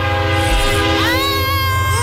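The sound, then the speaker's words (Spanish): Train horn sounding as a train arrives, steady layered harmonic tones held over a continuous low rumble, with a brief shift in pitch partway through. “¡Ahí viene el tren!”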